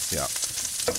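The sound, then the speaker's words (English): Hot food sizzling in a pan as it is stirred gives a steady, broad frying hiss throughout, with a brief spoken word near the start. “I'm gonna go with the sound of dropping hot food into a sizzling pan.”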